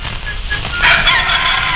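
A hen clucks in a few short, bright calls that grow louder toward the end, heard over a steady low background hum.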